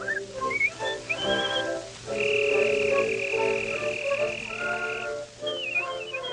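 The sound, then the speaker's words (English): Virtuoso whistling from a 1921 recording: quick, bright chirping phrases, then one long sustained high note for several seconds, then more rapid twittering figures, with a low steady hum underneath. “The recording we just heard, featuring this virtuoso whistler, dates all the way back to 1921.”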